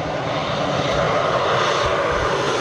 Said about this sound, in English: airplanes dropping water to douse wildfires in Canada's Northwest Territories